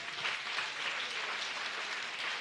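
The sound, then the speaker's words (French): Audience applause at a French-language prayer gathering: steady, even clapping from many hands, faint and continuous, with no breaks or swells. “Bravo, John, puis vous applaudissez ce matin.”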